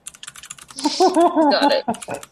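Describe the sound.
Typing on a computer keyboard: rapid, irregular clusters of crisp keystroke clicks, dense at the start and end with a brief pause between bursts.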